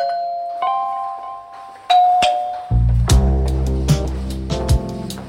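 A doorbell rings at a front door with two clear chime tones, then low sustained tones and sharp hits take over and carry to the end.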